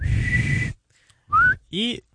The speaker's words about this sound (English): And the final whistle blows.